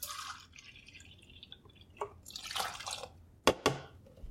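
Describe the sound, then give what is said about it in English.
Milk being poured onto finished gluten-free crepe batter: faint, soft liquid trickling and splashing, with a couple of sharper drips near the end. “I'm going to add milk on top of the already finished batter. And here we go.”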